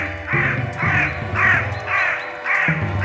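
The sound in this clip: Harsh, loud raven caws repeat in a steady rhythm, about six calls evenly spaced and heard over a low sustained drone.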